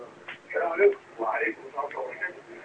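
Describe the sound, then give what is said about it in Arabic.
Television audio carried over a phone call: narrow, tinny, muffled voices run in a few uneven bursts across under three seconds, at moderate loudness with no clear words. “وطي التلفزيون بس.”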